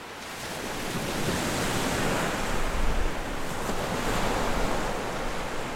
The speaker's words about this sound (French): regarde là on est face à la mer.